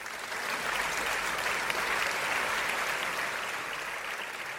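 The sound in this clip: Steady applause greets an astronomer guest calling in from Honolulu, Hawaii, to a talk show. The clapping is dense and continuous and holds an even level from start to finish, with no voices over it.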